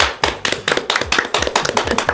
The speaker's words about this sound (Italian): Applauso.